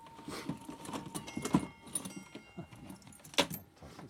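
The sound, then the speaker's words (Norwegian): A horse bridle being handled gives off faint metallic jingling: light clinks and rattles come at irregular intervals, and a couple of sharper chinks stand out. “Og her er det hestebissel. Se på den.”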